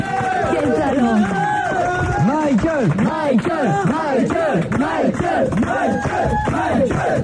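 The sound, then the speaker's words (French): Fans give an ovation at Alain's concert, having come in large numbers from all over France: a loud, unbroken roar of many voices cheering and shouting together, with chanted rising and falling calls running through the whole stretch. “alors que là il y a toujours l'ovation bien sûr de ses fans qui sont venus nombreux de la France entière”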